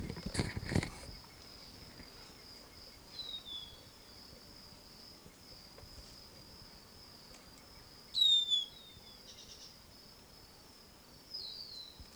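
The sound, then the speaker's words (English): Wild bird calls: a few brief, high chirps at scattered moments over a steady, high-pitched insect-like drone that runs throughout. “Wild bird in the background.”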